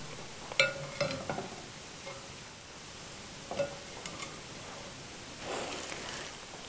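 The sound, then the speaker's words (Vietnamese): Broth being stirred in a pot while it cooks, soft faint scrapes and swishes with a few sharper knocks of the utensil against the pot, over a low steady hiss. “Khi nấu nước dùng này chúng ta phải khuấy luôn liên tục để cho nó tránh bị khê.”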